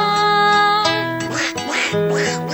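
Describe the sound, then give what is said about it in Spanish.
Duck quacking: a few loud, nasal quacks over a steady humming tone. “El pato tenía miedo de”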